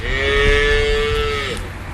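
A cow mooing on a farm where the dairy cows are in their dry period: one loud, sustained, low moo lasting about a second and a half, steady in pitch and rich in harmonics, fading at the end.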